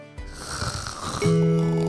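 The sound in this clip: A single snore from a person who has fallen asleep: a rough, breathy inhale that turns into a louder, buzzing tonal rattle held to the end.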